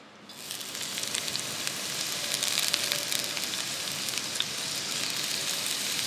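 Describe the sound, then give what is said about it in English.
Onion and garlic sizzle steadily in a hot pot, giving a dense, even hiss with faint crackles that stays constant throughout, without talk. “So we've got the onion in the pot with some garlic.”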